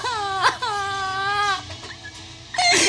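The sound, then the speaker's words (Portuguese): A girl crying and sobbing, with wavering, high wailing cries that rise and break into short gasps. No words are spoken. “Chora, minha filha, chora. Tira para fora todo esse sofrimento.”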